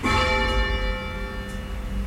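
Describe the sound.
Church bell rung by pulling its rope in a bell-ringing tower, a rich metallic clang whose layered overtones ring on steadily through the whole moment.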